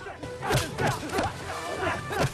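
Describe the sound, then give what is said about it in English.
A fight on a boat, with kicks, punches and a metal pole swung at attackers: a fast run of several sharp thwacks and swishes in quick succession, each hit loud and abrupt. “He fights them off with a barrage of kicks and punches and spins out of trouble using a metal pole.”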